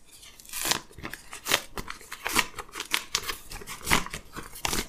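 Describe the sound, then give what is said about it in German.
An envelope is torn open by hand: faint, crisp paper crinkling and many short ripping bursts in an uneven rhythm, with no talking. “Ich habe hier einen Umschlag und den, ja, werde ich jetzt mal öffnen.”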